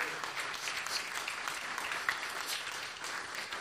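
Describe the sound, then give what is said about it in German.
Faint, steady applause from an audience welcoming a guest to a discussion event. Dense, even clapping holds at a constant level throughout. “Felix Kosok, Riesenapplaus, damit wir diese Identität auch hören hier mal am Eingang.”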